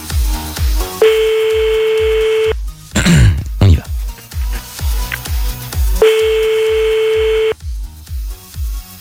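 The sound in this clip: Electronic telephone tones as a call is placed from a radio studio during a call-in game: two long, steady, bright tones with a quick sweeping burst between them, all over a thumping music bed.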